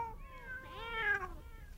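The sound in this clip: Cats meowing while waiting to be fed: faint, drawn-out, tonal meowing whose pitch bends up and down, with no talk.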